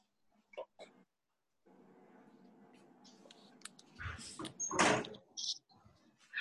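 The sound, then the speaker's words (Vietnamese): A door is pushed shut in a room where echo is a concern. A few faint clicks and a steady low hum come first, then a loud, heavy thud with a brief rattle, followed by softer knocks. “Em đóng thử cái cửa này lại xem.”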